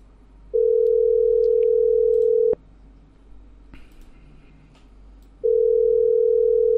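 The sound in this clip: A telephone dial tone sounds while a number is being called, a steady loud single-pitched hum in two long stretches. A sharp click and a quieter stretch of faint noise separate them.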